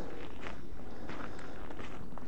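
Footsteps crunching on a damp gravel road, a few soft, gritty steps in an even walking rhythm, fairly quiet.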